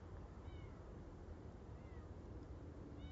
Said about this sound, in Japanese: 猫ですね。うわ、なんか近づいてきてるのがわかるな。